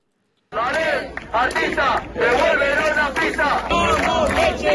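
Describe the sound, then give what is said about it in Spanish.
About 150 athletes and athletics club representatives protest at the entrance to the Balaídos athletics track in Vigo. After a moment of silence, loud chanting and shouting start suddenly and continue in rhythmic surges. “Este es el sonido de la protesta ayer en la entrada de las pistas de atletismo de Balaídos, en la que cerca de 150 atletas y representantes de clubes de atletismo en Vigo han manifestado su malestar”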